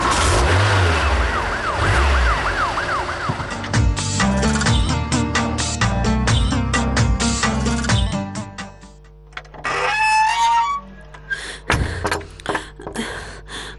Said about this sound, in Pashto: اوس خبرې پرېږدئ، پورته شئ موټر ته. ښه صاحب، زر زر موټر ته حرکت ورکړه.